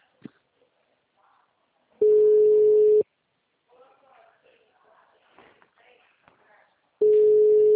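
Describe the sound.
Telephone ringback tone while a call waits to be answered: two steady, low, one-second beeps separated by a long pause, with faint rustling in between.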